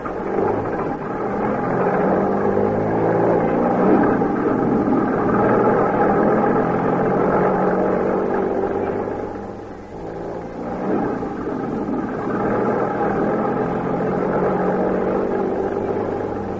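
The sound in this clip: Car engine hums steadily while driving, a mid-pitched drone that dips briefly about midway and then returns to the same level.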